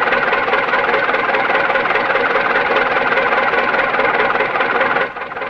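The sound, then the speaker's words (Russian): A tractor engine idles in a steady, loud mechanical drone with a fast vibrating rattle, then drops abruptly in level shortly before the end. “Ну, поезжайте, а то трактор простаивает.”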